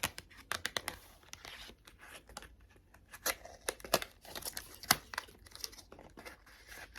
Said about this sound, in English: I'm going to just get out some tarot cards.